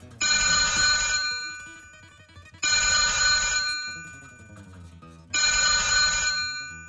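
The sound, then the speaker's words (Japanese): A telephone at a school rings three times, each ring a loud, bright trilling burst of about two seconds, its tail fading before the next ring. “その祈りは大抵一本の電話で叶わぬものとなる。”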